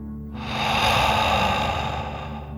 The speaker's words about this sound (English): then out through your mouth, imagining you are breathing fire like a dragon. Ready? Deep breath in and out.